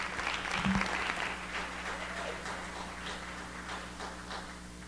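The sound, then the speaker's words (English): Audience applause welcoming a speaker at a morning gathering: a steady, dense wash of clapping that is fullest at the start and continues evenly throughout, with a low hum underneath. “You guys put your hands together and welcome Brother Terry as he comes this morning.”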